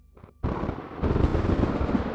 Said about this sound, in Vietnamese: Tiếng sấm nổ vang trời